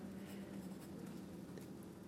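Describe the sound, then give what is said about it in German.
Someone writes: a faint, continuous scratching of pen on paper with light, uneven strokes. “Was schreibst du denn da?”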